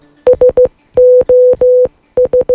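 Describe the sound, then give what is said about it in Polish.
Morse code SOS distress signal beeped in one steady mid-pitched tone: three short beeps, three long beeps, then three short beeps, crisp and loud against silence. “Trzy krótkie, trzy długie, trzy krótkie. Co oznacza taki sygnał w kodzie Morsa?”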